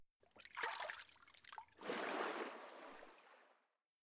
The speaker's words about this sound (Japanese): お湯かけますね。